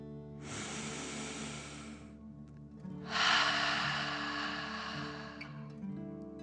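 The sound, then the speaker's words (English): Soft breathing in and out comes as two long, airy, hissing breaths. The second is louder and longer, and a faint steady hum sits underneath. “Again, softly breathe in and out.”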